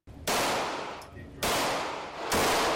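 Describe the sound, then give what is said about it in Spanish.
Gunfire at an outdoor shooting range in Summerville, South Carolina, on a Saturday morning. Three loud, harsh bursts come in turn, each ringing out for about a second before the next. “Sábado por la mañana en un polígono de tiro en Somerville, Carolina del Sur.”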